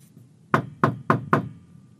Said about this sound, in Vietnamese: Duy Hiển từ ngoài gõ cửa.